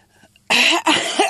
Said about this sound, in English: Excuse me, a bit of a cough today.